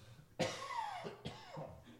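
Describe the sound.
A harsh cough from a scratchy throat interrupts a sermon reading, a loud burst followed by a couple of shorter, weaker coughs, with no talking over them.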